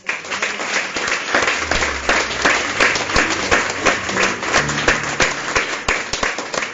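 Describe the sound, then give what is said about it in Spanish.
Audience applause at a bilingual gathering: many dense, overlapping hand claps at a steady, loud level throughout, with no voices standing out. “Let's give them a huge round of applause.”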